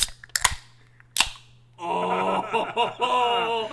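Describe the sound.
A can of Baja Blast soda is opened with two sharp cracks a moment apart, followed by people talking.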